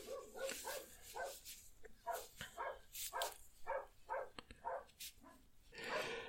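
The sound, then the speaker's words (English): A dog barks repeatedly in a long series of sharp, fairly quiet barks with short gaps between them. “Oh my god, that dog. Really sorry about that.”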